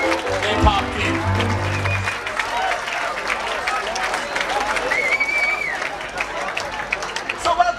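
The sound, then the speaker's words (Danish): A crowd in a festival tent at Tønder Festival claps and cheers, with applause mixed into lively chatter and calls. A low rumble sits under the opening seconds, and the noise stays busy and fairly even to the end. “Jeg ved, du har lavet lidt stemning derfra, du lige tog med på bånd. Det synes jeg lige, vi skal prøve at høre, så kan man lige fornemme, hvordan det var i teltet der.”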